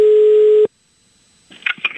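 A steady telephone line tone during a phone call sounds for under a second and then cuts off abruptly. After a short silence comes faint, crackly line noise.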